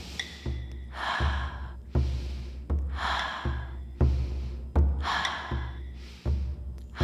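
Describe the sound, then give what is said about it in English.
Fast rhythmic breathing during a guided breathwork session, with many quick, forceful inhales and exhales through nose and mouth in a steady repeating pattern, each breath a short airy rush, heard alone without talk. “The movement will be a faster inhale and exhale. Same nose and mouth.”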